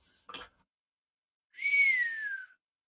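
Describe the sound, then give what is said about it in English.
A whistle: a single clear whistled tone, about one second long, gliding slowly downward in pitch. A brief sharp noise burst comes before it. “got a whistle out of that. Good job. Good job on that whistle.”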